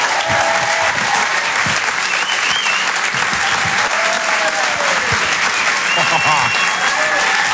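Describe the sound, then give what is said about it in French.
An audience breaks into applause and cheering, dense steady clapping that stays loud and continuous throughout, with occasional voices rising over it. “Je vous demande un maximum de bruit, s'il vous plaît, pour Jérémy Crénoville”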